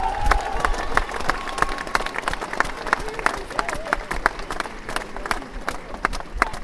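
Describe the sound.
Crowd applause at a Labour Party rally for Jeremy Corbyn's leadership campaign, welcoming a local councillor to the stage. Dense, continuous clapping holds at an even level from start to finish.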